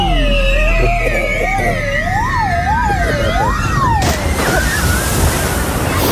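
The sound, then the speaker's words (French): A person rushing down a pool water slide and plunging in, a wavering, siren-like vocal cry riding over a steady watery roar, then a loud, noisy burst of splashing water for the final two seconds. “Voilà, et on s'élance du toboggan. À la une, à la deux, et à trois. Et c'est parti.”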